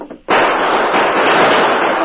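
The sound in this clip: Loud, dense gunfire as a band of sixteen outlaws crashes through the flimsy doors of a jailhouse, bursting in abruptly and holding as a continuous roar of shots and crashing to the end.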